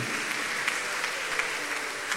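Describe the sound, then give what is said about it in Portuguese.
A round of applause rises from the audience at a Mass: brief, steady, evenly textured clapping with no voices over it. “Uma salva de palmas aos nossos ouvintes da FM Dom Bosco.”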